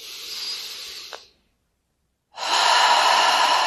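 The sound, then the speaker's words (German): A deep breath in and out during a guided relaxation exercise. It comes as two long, airy breath sounds with about a second of silence between them, and the second breath is louder and brighter. “Und gleich noch einmal, atme noch einmal ein, ganz tief.”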